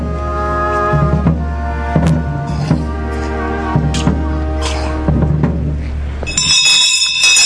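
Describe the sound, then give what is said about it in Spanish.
The muñidor's handbell rung during a Holy Burial procession, many ringing metallic strikes at roughly one-second intervals, each leaving a sustained tone. “Suena el muñidor.”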